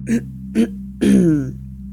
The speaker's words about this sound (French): Après s'être raclé la gorge à 2 ou 3 reprises, il leur avoua...